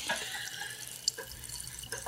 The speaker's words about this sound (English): That was the sound of Neil Young pouring sparkling water into a glass.